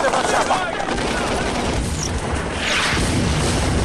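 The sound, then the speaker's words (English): Two pistols fired by an assassin during an action scene on a hillside, the shots blending into a dense, loud, continuous barrage of gunfire. “The assassin fires two pistols.”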